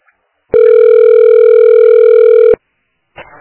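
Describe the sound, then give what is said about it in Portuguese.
Telephone ringback tone on a call to a public health clinic: one steady, loud tone lasting about two seconds, followed after a pause by a faint, brief sound. “Você ligou para Unidade de Saúde Centro. Aguarde para ser atendido.”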